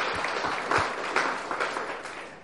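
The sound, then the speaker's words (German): A church audience claps in praise during a service, a fairly soft, continuous patter of many hands with a few sharper, louder accents scattered through it. “Let's give God praise, church. Lass uns klatschen für den Herrn.”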